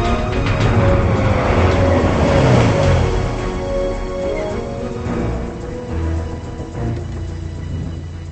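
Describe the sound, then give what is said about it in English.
A car's engine rumbles steadily as it pulls into a motel parking lot, a continuous broad whooshing drone that is strongest early on and then eases slightly, with no voices. “pulls into the parking lot.”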